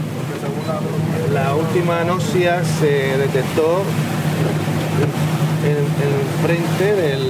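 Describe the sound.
Steady low engine drone of a motorboat crossing a lagoon near the La Manga strip, running continuously beneath clear, close talking voices.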